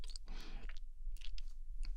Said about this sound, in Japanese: チョコを食べて